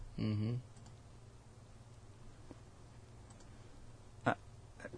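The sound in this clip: Computer mouse clicking: a few faint, sharp taps near the end over a low hum, after a brief voiced sound at the start.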